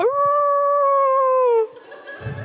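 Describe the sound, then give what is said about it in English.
A coyote howls in the woods of a park at night, one long, clear, steady howl that rises briefly at the start and sags downward as it ends, leaving faint rustling after. “Like, it's probably coyote. It's fine. And it was kind of far away”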